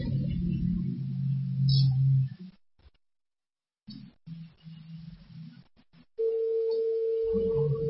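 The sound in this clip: A telephone dial tone after a dropped phone line: one steady mid-pitched tone that holds for about a second, preceded by low rumbling noise and a brief stretch of near silence.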